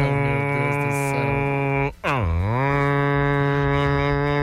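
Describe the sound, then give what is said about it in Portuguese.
A berrante cattle horn blows a loud, buzzy, sustained low note rich in overtones. It breaks off briefly midway, then swoops up from a lower pitch and holds steady again. “E ainda tem o pacote Pantanal, solta o berrante”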